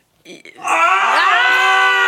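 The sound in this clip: A person screams in celebration of a birthday: a couple of brief vocal bursts, then a long, loud, sustained voiced scream whose pitch climbs partway through and holds to the end.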